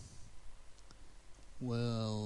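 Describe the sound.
Soft clicks of typing on a computer keyboard as a password is entered into a password-checking website. A few faint, sparse keystrokes sit over a low hiss before a voice begins at the end.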